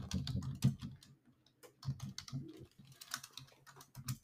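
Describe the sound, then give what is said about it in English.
Typing on a computer keyboard: a faint, irregular run of quick key clicks with a few louder taps, and no voices. “let's go ahead and type up this”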